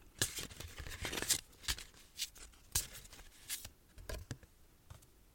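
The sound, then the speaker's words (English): Cards drawn from a rose-gold-trimmed oracle deck used for a tarot pull: quiet, irregular papery flicks and slides, a handful of sharper snaps among soft rustling, with no talking. “Let's pull a tarot card here.”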